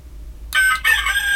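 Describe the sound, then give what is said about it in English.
A rooster crows in a barnyard among farm animals: one loud, strained cock-a-doodle-doo that starts after a half-second of near silence, dips briefly midway, then carries on to the end. “This is Roy the Rooster.”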